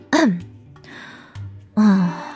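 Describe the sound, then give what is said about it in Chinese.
Hoarse coughing from a man whose throat has gone rough after lying face down for a long time: a few gravelly, voiced coughs and throat-clearing sounds, loud and separated by short pauses. “秦冉咳了两声，因为趴的时间长了他的嗓子有些哑，他手按了一下嗓子那儿”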